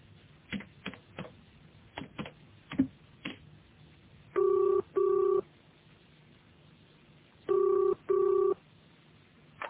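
A telephone is dialed with a run of quick, irregular clicks, followed by two double-pulse ringing tones heard through the line, each pair steady and evenly spaced. Quiet background, no talk.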